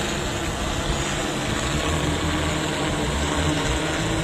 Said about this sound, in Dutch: Een ander bedrijf hoopt ze nu ook met drones te bevrijden. Dat klinkt zo.